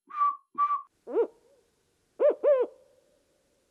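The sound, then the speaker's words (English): A voice imitates the hooting of a small owl, such as a screech owl: six short, faint, wavering hoots in uneven groups, two higher notes followed by lower, falling ones, with quiet gaps between. “a smaller owl, like a screech owl, might go”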